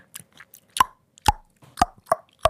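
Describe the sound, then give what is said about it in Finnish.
Tongue clicking by a person: five sharp, hollow pops at uneven intervals, led by a few softer mouth clicks, with no talking. “täällä on, että kielen nakuttelu”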